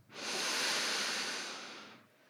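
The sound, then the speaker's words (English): A deep inhale, heard as a steady, airy hiss that swells quickly, holds for nearly two seconds, then tapers off. No talking. “take a moment now, whatever state or space you're in, to take a really big inhale”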